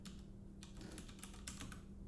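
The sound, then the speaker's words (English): Computer keyboard typing: many quick, faint, irregular key clicks patter steadily over a low hum, with no voices. “Listen to me type”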